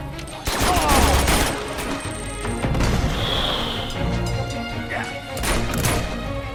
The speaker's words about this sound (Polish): Granat. Granat.